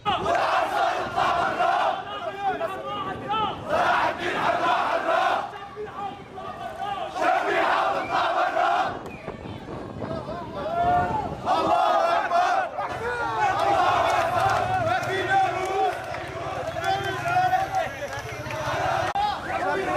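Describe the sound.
Protesters in Aleppo chant together as a crowd, their massed voices rising in rhythmic shouted phrases. Loud bursts of chanting are separated by short lulls where the volume drops before the next surge.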